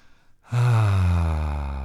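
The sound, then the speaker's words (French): A person exhales to release the breath, a loud, sustained, voiced sigh that starts abruptly and holds a steady tone as it trails on. “Relâche l'air, on expire.”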